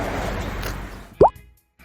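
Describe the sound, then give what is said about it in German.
A single short pop as a button is pressed to stop a recording, cutting through faint steady hiss and followed almost at once by near silence. “Ja, komm, du, versuch mal ohne runterzählen auszuschalten. Das geht wirklich. Ich habe es doch mal ausprobiert. Drück mal auf Stopp.”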